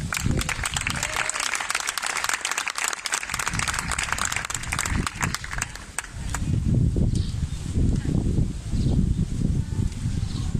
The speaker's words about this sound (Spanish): Un aplauso.